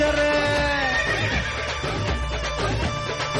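A horse neighs in a long, shrill whinny that wavers up and down, set within a busy musical backing.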